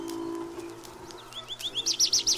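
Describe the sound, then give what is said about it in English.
Birds singing in spring, with a quick run of bright, high chirps that grows louder and more rapid toward the end, over a steady low hum. “It is spring. The birds have been in full song.”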